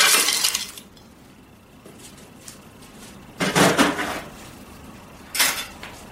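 Ice cubes clink into a glass with mint leaves for a drink in three bright, clattering bursts, with quieter stretches between them.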